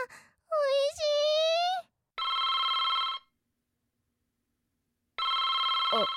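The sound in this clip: A telephone rings with an incoming call from an older sister: two sustained electronic ring bursts with a bright, buzzy tone. A short voiced sound comes just before the rings.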